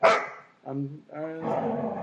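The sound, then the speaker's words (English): A dog barks in a studio, giving a sharp opening bark and then a few shorter, lower barks and whines in quick succession, with a voice faintly mixed in. “I'm also in studio this week we have Franklin the dog.”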